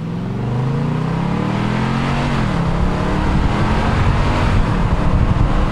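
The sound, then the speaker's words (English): A Titan truck's engine accelerates from 0 to 60 with a window open. Its harmonic drone climbs steadily in pitch, then dips at a shift, under a loud, continuous rush of wind and road noise. “I'm rolling down my window, getting some ambiance. You guys can hear the outside air here.”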